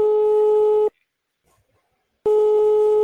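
A telephone line tone heard while calling tech support, a steady mid-pitched tone that cuts off into silence and then returns unchanged.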